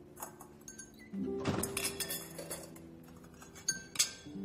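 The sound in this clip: Wine glasses clinking as they are loaded into a dishwasher behind a bar counter, a faint run of light glassy knocks and clatters with a brighter clink near the end.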